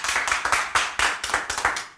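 Rhythmic hand clapping from an audience at a live Selichot music event, cheering on a performer: many crisp, evenly paced claps in a steady beat, fairly loud, with no talking over them.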